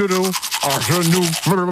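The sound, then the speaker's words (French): Teeth being brushed with a toothbrush, a fast rhythmic scrubbing heard throughout, with a muffled, garbled voice sounding over it. “On réécoute l'extrait de du brossage.”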